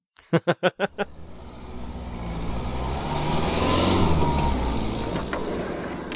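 A car engine revs and the car drives off. Five short rhythmic pulses come first, then the engine noise swells into a steady, building drone that eases slightly near the end.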